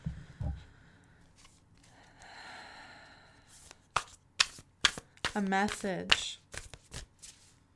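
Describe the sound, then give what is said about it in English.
Cards from a mystical shaman oracle deck are shuffled and drawn, giving soft papery riffling followed by several sharp flicks and snaps, with a brief vocal sound among them. “I've decided I want to pull one more card from the mystical shaman oracle that I have.”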